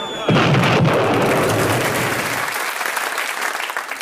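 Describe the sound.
A wartime bomb explosion effect from a comedy sketch starts with a sudden loud blast. It becomes a sustained crackling, rumbling roar that loses its deep low end partway through and continues as a dense, noisy hiss.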